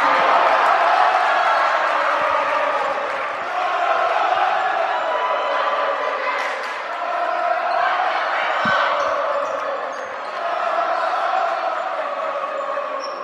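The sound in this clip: A loud crowd fills a gym at a high school basketball game between Sandusky and Montrose, a dense, steady roar of many voices that swells and dips slightly throughout.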